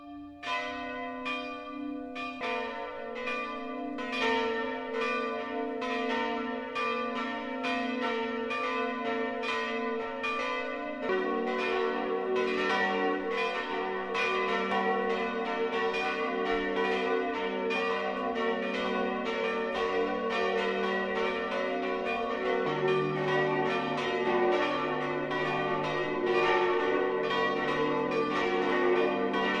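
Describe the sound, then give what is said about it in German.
Church bells ring the noon peal at a Catholic parish church in an Upper Bavarian mountain valley, a dense, continuous overlapping peal of several bells, with deeper bells joining as it goes on. “Das Mittagsläuten kommt heute von der katholischen Pfarrkirche St. Nikolaus in der Jachenau in Oberbayern.”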